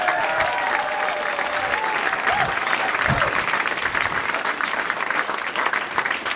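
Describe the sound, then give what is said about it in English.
Audience applause at a stand-up comedy show as a comedian is welcomed to the stage: dense, steady clapping that fills the whole stretch, with a few cheers riding on top. “Another round of applause for Chris Hardwick,”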